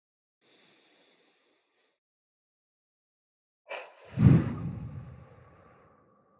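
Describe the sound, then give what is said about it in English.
A deep grounding breath is taken after a long quiet stretch. A brief sharp intake leads into a loud, low, breathy exhale that fades gradually. “can you lead us in a grounding breath? Sure. Let's do it.”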